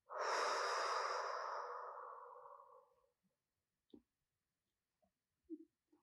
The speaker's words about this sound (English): Once again, deeply breathe in and out.